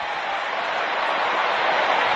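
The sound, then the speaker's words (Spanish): A stadium crowd does the wave at AT&T Stadium during a Cowboys football game: a continuous, broad roar of many voices that swells slightly as it goes on, with no clear individual words. “Bueno, lo que escuche usted en radio aquí para describirle la fanaticada haciendo la ola, Víctor, en el AT&T Stadium.”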